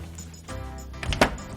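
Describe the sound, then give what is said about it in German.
Knocking on a room door: a few quick, sharp raps grouped close together near the end, fairly loud, with no talk. “Ich klopfe an. Mal sehen, ob er da ist.”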